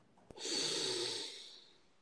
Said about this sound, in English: in through the nose, out through the mouth. Big breath in, hold at the